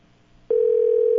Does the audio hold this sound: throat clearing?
no